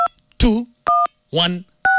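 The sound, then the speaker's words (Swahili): Three phone keypad tones from dialing the USSD code star 216 hash, each a short steady beep, alternating with brief bursts of a speaking voice. “Andika tu kwa simu yako star 216#. Andika hiyo namba, alafu bonyeza hiyo green button.”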